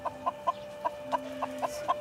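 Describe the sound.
Quiet, rhythmic clucking from an injured, limping chicken with a suspected fracture: a steady run of short clucks repeating about every quarter second, with no voices over it.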